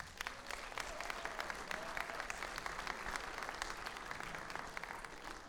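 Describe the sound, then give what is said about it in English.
Applause from a church audience welcoming a speaker, a dense, steady wash of many hands clapping at an even loudness throughout, with no voices rising above it. “put your hands together and give a warm welcome to Jim Johnson as he comes”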